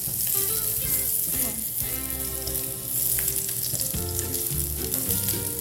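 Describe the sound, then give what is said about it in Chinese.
Steady, loud sizzling of aromatics being stir-fried in a pan to build a soup base, crackling continuously with a few brief dips and swells, with no voices. “那我们现在这边就可以开始先爆香我们的汤头，炒香一下下。”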